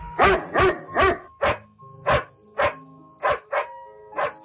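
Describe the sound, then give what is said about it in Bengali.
A frightened dog, tied up inside a house, barks nine times in fairly even succession. The barks are short and sharp, and the last few come a little more softly and further apart. “বাড়িতে ঢুকতেই কুকুরের চিৎকার শুনতে পেলাম।”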